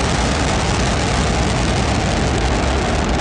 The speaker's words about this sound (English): Liftoff of the Falcon 9. Go SpaceX. Go Transporter 12. Vehicle's pitching downrange.